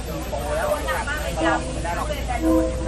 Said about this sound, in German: Ja, hat man gehört. aber man hat ja auch eben gehört, dass dieser Zug wirklich extrem nah ist.